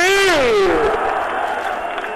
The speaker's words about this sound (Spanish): Y ahí está el griterío.